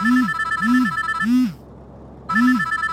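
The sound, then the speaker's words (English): A phone ringtone signals an incoming call in a messaging app. A repeating electronic ring pattern of bright tones sits over a low chirp, loud and alone. The pattern pauses briefly and then starts again. “Oh, God, that better not be another voicemail. Wait. Who's calling me on Signal?”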